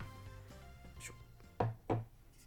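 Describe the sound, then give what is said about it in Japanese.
A can of Yebisu Hop Drip beer being opened: two sharp, loud bursts close together, the tab's crack and release, standing out over a quiet background. “年末にドンと来ました恵比寿のホップドリップですねじゃあちょっと早速開けてね飲んでいきたいと思います”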